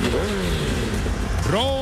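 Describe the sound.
Motorcycle engine revving, heard in an ad for aftermarket motorcycle parts. A steady engine drone runs under other sound, then climbs sharply in pitch near the end.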